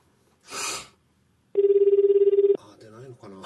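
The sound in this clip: An outgoing telephone call rings once with a steady, fluttering tone. A brief burst of noise comes before the ring, and people start talking right after it.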